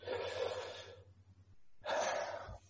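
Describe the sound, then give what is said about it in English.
Deep cleansing breaths: two long, full, breathy rushes of air separated by a short pause, fairly loud and alone with no talk, over a faint steady low hum. “I want to encourage all of you just to take a deep cleansing breath.”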